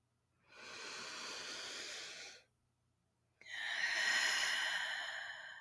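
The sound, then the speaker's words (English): A deep breath: two long, airy, breathy rushes separated by a short silence, the second louder and brighter, with no talk. “This is your reminder to take a deep breath.”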